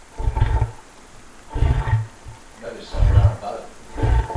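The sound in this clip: Sound effect of a shovel being dragged near water: four rough, low scraping swells, each rising and fading with short pauses between them.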